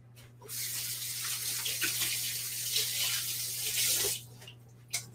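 Running tap water as hands are washed during cooking, a steady splashing hiss lasting about four seconds that cuts off abruptly, followed by a single faint knock.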